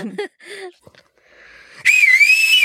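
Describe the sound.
A person whistles a loud, sustained high tone with a wavering pitch, the call a father uses to summon his daughter home. It follows brief talk and a quiet pause, then holds steady for under a second.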